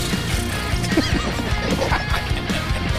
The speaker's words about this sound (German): Du darfst dein Pferd wieder satteln und nach Hause reiten.